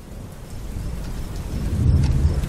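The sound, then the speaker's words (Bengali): Heavy rain pours with thunder, a dense steady hiss over deep, low rumbling that swells toward the end. “বাইরে বৃষ্টি হচ্ছে অঝোর ধারায়, যেন আজই মহাপ্রলয়ের নির্ঘণ্ট উপস্থিত। বিদ্যুৎ চমকের ভোঁতা শব্দে ছোট্ট বদ্ধ ঘর কেঁপে কেঁপে উঠছে।”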